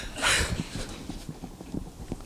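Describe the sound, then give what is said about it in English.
Footsteps run up stairs as a quick, fairly faint series of thudding steps in an uneven rhythm. “This is Dave again. That means I have to run up all the stairs.”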